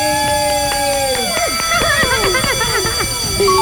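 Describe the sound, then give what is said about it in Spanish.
A telephone rings during a live on-air call to a listener, an electronic ringtone of many quick, gliding notes over a steady, loud bed of sound. “Ya me marcó el número, ¿a quién le marcamos? Ahí está. En vivo. Ay, está llamando, chamacos. Y suena la que buena.”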